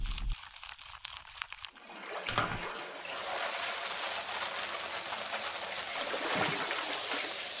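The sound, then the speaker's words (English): Water rinsing hair in a tub: a few seconds of quieter splashing and handling, then a steady, full rush of pouring water that continues evenly to the end without talk. “I have to be super gentle. There. Just one more rinse.”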